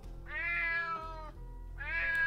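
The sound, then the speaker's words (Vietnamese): A cat meows in the night: two drawn-out, mid-pitched meows separated by a short pause, the second one cut off at the end, over a faint low hum. “Tiếng mèo kêu vang vọng trong đêm tối kéo Trung Đạt”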